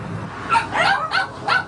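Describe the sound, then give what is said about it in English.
Dogs barking in short, sharp, yelping bursts, with a few barks in quick succession. The dogs were rescued from a home where they lived in miserable condition. “Against a soundtrack of barking dogs”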